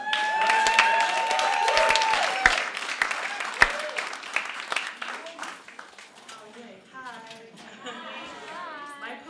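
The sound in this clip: Audience applause at a Seattle poetry slam after a slam poet's set: dense, loud clapping fills the first half, then thins out and fades as a person begins talking.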